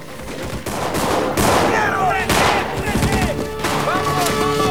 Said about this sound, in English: One man stops for a moment to fire in the darkness behind him.